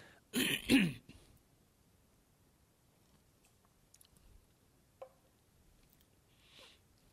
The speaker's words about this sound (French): Et je vais boire un petit peu parce que j'ai un matou dans ma gorge.